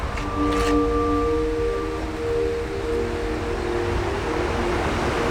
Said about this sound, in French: Qu'on entend là, le cours d'eau, le torrent derrière, c'est le Vénéon.